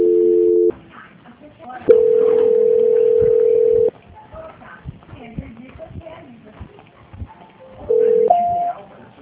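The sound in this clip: Phone call transfer tones sound as three steady electronic beeps: a short dual tone, a long tone of about two seconds, then a brief tone that steps up in pitch. Quiet line noise fills the gaps between them.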